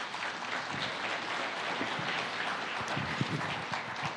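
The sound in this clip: An audience at Valley Church applauds to welcome a speaker, a dense, steady wash of many hands clapping that holds at an even level for the whole stretch.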